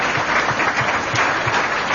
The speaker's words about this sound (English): let's be fair and have a round of applause for the Democrats, too.